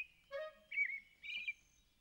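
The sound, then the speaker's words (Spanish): An adult thrush singing three short, clear whistled phrases in quick succession, bright and high-pitched with warbling, slurred notes, heard alone against a quiet background. “¡Es un tordo! ¡Un tordo adulto!”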